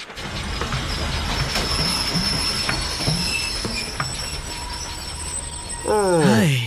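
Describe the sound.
Train braking with wheels squealing after its rear freight car has come loose: a steady rumbling train noise with faint clicks builds to a loud, rising metallic screech of wheels near the end.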